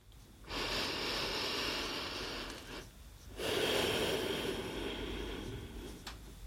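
Two long, deep breaths are drawn slowly, each a soft, breathy hiss lasting a couple of seconds, separated by a short pause and heard alone without speech.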